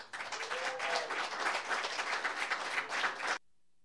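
An audience applauds to welcome a songwriter and performer to the stage: dense, steady clapping for about three seconds that stops abruptly, followed by near silence.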